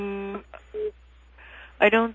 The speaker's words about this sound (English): Is somebody beeping? Someone is.